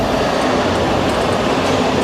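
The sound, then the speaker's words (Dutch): A subway train on the Washington metro gives a loud, steady rumbling roar that stays constant without breaks or clear wheel clicks. “Ze zijn hier in de metro.”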